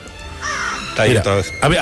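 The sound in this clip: Harsh, raspy cawing of a crow, a few loud calls in quick succession after a quieter stretch.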